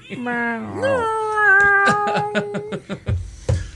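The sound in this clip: A drawn-out cat meow that rises at the start and then holds a steady pitch for over a second, followed by people talking.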